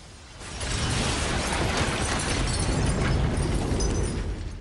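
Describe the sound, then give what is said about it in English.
A building explodes in a loud, sustained roar of broad noise that surges up after a quieter first half second and rumbles on for several seconds without voices. “She hits the switch and the building explodes.”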